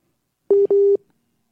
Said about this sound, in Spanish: parece que tienes otra llamada